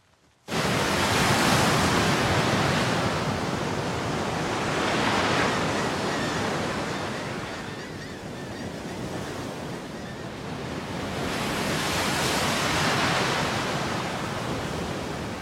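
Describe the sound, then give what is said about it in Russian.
Sea waves break on a shoreline in a continuous broad roar that swells and ebbs a few times, with a wind-like hiss running throughout and no voices. “Он стоит на берегу моря.”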